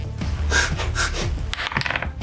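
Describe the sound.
Dice roll across a table during a tabletop role-playing game, a quick dense clatter of small rattling clicks lasting about two seconds, with no voices.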